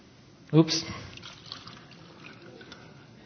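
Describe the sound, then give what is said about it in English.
Water pours from a clear pitcher into a clear glass, starting as a quick splashing burst and thinning to a faint trickle. “I have before me a clear vase pitcher of water. I also have a clear glass. When I pour this water, transfer this water,”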